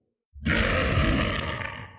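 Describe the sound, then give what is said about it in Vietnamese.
A nine-headed serpent roars in a fantasy battle over lava, a loud, deep, growling roar that bursts in after silence and rumbles on for about a second and a half before easing slightly. “Rắn chín đầu rống lớn”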